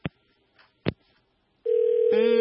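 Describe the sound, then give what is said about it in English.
Telephone line sounds as a call comes in on a radio phone-in: a couple of sharp clicks, then a steady continuous tone that a second tone joins near the end. “Please hold on. We have a caller. We'll come back to you. Hello, caller.”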